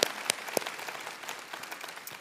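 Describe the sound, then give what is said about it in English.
Audience applause welcomes viewers watching from Toledo Correctional online and on TV: dense, steady clapping from a crowd with a few sharper claps standing out, holding at an even level throughout. “And so would you put your hands together to welcome those who are watching at Toledo Correctional online on TV.”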